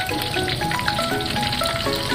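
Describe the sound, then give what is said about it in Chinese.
Fish pieces marinated with scallion, ginger and salt, then coated in an egg batter, deep-fry in hot oil. The sizzle is a dense, steady crackle with fine popping throughout and no voices. “然后再加入鸡蛋液抓匀，裹上一层糊，下锅油炸，防止鱼肉焦糊。”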